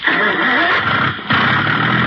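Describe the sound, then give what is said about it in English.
A motorboat engine starting up to tow a water skier, giving a loud, steady, buzzing roar that dips briefly before carrying on at full strength. No one speaks over it. “Now, I'll start the motor.”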